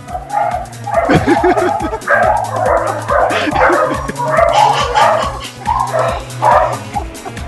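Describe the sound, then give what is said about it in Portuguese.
Several dogs at a single house bark in a loud, frantic burst. Deep woofs overlap with high yips and whimpers in a near-continuous stream of barking throughout. “Caraca, deu uma louca nos cachorros. Não, pior que é uma casa só, mas tem vários cachorros.”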